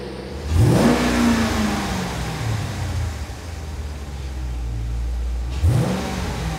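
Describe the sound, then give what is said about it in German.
A car engine revs hard in two bursts, its pitch sweeping sharply upward, then settling into a steady throaty drone between the revs. The sound is loud and alone, with no talk over it. “Ey, gib Gummi, lass klingen. Gib mal Gas.”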